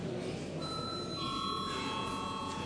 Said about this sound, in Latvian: Lūdzu, zvanu.